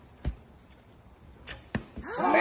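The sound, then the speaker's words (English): An arrow shot from a bow during a trick-shot attempt: a few sharp, snapping transients spaced apart, then a louder, sustained rush of noise with whistling tones at the very end. “Got his little bow and arrow. He's getting loosening up. Here he goes.”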